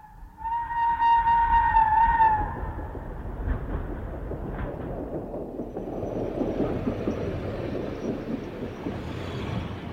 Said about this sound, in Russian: Ну вот, и поезд подошел.